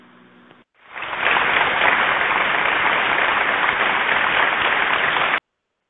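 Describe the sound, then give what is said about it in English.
Applause from a crowd rises quickly into a dense, steady wash of clapping, holds evenly for about four seconds, then cuts off abruptly. “clap, clap, clap, clap, clap.”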